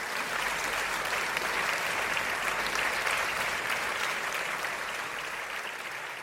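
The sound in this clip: Sustained audience applause greets an actress guest walking onto a talk show stage, a dense, even wash of clapping that holds steady throughout and eases slightly at the end.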